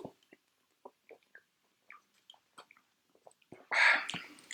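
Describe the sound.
Beer is sipped after a toast, heard as quiet mouth sounds and soft clicks followed by a short, louder slurping burst near the end.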